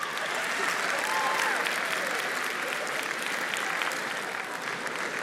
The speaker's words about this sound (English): It feels good to be cheered for, doesn't it, girls?